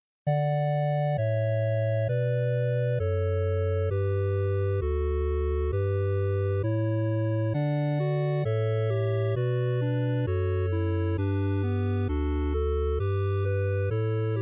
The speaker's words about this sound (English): electronic music that sounds like it came straight from a classic video game.